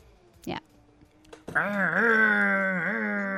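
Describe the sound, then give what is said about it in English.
A voice imitates a chainsaw with a loud, sustained buzzing drone that wavers in pitch for about two seconds. A brief, fainter vocal sound comes before it. “You do a chainsaw much better than I do.”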